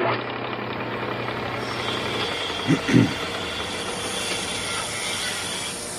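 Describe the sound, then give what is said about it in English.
A short show jingle for a game-design workshop plays as a dense, steady mechanical-sounding texture with faint tonal lines and two brief low thumps near the middle. “That's the less metal workshop bumper.”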